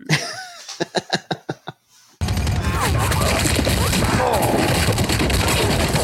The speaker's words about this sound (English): The 50 cal taking out everyone. Endless supply of ammo.